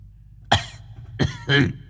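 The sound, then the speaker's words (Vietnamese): Harsh coughing from an old man who has just smoked a cigarette: three rough, throaty bursts, the first alone and the last two close together, with no talk. “Đoạn lão ho sủ sụ”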